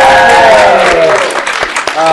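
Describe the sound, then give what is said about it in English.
A live audience at Gen Con claps and cheers loudly, with whooping voices over the applause. The noise thins and drops off after about a second, then briefly picks up again. “This has been a series of podcasts recorded here at Gen Con, live. Noise from the audience.”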